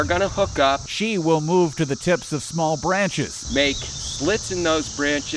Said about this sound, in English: the males will switch over to what we call a courtship song. That's the sound you hear when cicadas are out.